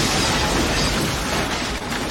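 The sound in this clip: A hand grenade explodes in a video game: a loud, dense roar of noise fills the whole clip without letting up.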